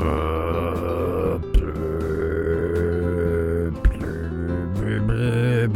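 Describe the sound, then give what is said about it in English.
A voice imitates a bassoon with a deep, buzzy, reedy drone held on steady low tones, broken by two brief pauses before it carries on. “Did you hear his bassoon? It was terrible. Like, who can't do a bassoon? Do a bassoon. It's literally just...”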